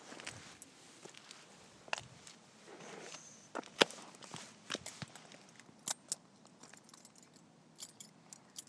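Footsteps while walking outdoors, an irregular string of faint crisp steps and sharp clicks, some louder than others, over a quiet background.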